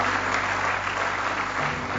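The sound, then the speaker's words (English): A church audience claps in praise, giving steady applause that stays constant and fairly loud from start to finish. “Give Him one more hand clap of praise if you love Him with all your heart.”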